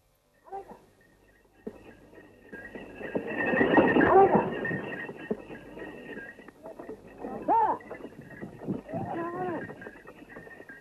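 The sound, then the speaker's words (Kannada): Bullock cart on the move, with faint clopping hooves and a few animal calls. A person talks over the quiet, uneven rolling sound. “ಗಾಡಿ ನಿಧಾನ ಓಡಿಸಪ್ಪ”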